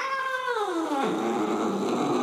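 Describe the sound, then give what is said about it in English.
A single drawn-out cat meow, fairly loud and alone, sliding steadily downward in pitch before settling into a rougher, lower tail. “Boss called the shot with a mighty meow”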